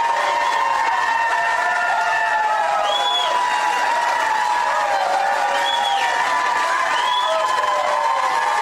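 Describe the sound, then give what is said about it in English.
A crowd cheers at a Republican primary rally on election night in Iowa, a steady roar of voices with whistle-like shrieks rising and falling above it. “that's a lot of unnecessary cheering right there, if you ask me.”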